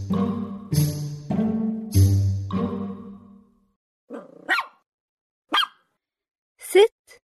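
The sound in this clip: A dog barking: long, drawn-out tonal vocal sounds at first, then a few sharp, separate barks with gaps of silence between them.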